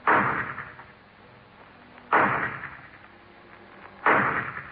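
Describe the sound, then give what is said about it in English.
Gunshots ring out from a low barn-like building at the rear of a property: three sharp, loud reports spaced about two seconds apart, each followed by a long fading tail. “The shot came from a low barn-like building at the rear of the property”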